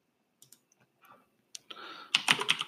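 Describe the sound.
Typing a note on a computer keyboard: a few scattered light key clicks, then a quicker, louder run of keystrokes toward the end.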